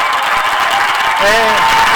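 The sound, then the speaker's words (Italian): Applause from thousands of young people, bishops and officials at a gathering of Germans, a steady dense wash of clapping throughout, with a voice rising briefly over it near the end. “È l'applauso, l'applauso dei tedeschi, dei giovani, dei vescovi, delle autorità. Sono migliaia di giovani,”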